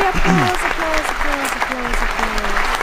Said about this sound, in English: applause. Which, fucking long ass clapping.